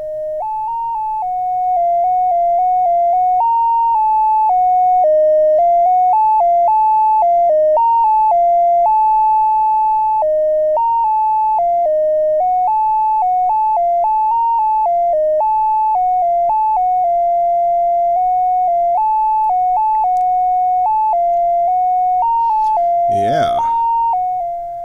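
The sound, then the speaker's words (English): A synthesizer oscillator driven by random quantized modulation plays a long run of stepped notes, jumping unpredictably between a handful of pitches in a steady clocked rhythm, with some notes repeating; a brief noisy burst breaks in near the end. “And I've got this random quantized stuff plugged into that. And basically, it sounds like this.”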